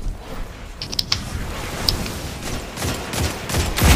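Gunfire in the video game Destiny 2: a few sharp, clicky shots pop out over a steady, noisy wash of game sound, with a louder burst of rumbling noise near the end.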